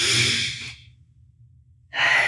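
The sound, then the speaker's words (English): Slow, deep breathing in a guided relaxation exercise: a long, soft, airy exhale fades to near silence, then another breath begins at the end, with no voice. “So take a breath in and exhale. Take another breath in and exhale.”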